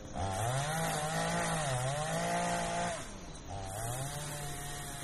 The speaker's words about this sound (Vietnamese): đó là tiếng máy cưa hoạt động.